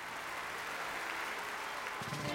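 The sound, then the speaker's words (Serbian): Faint, steady applause for a guest introduced as a bass-guitar-playing musician, a soft continuous patter of clapping hands throughout. “Aplauz.”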